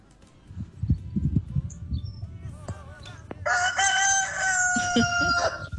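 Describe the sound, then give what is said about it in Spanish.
A rooster lets out a single long, loud crow that rings over low, rumbling background noise and a few soft knocks. “parece que hoy vamos a comer al gallo de Marioski”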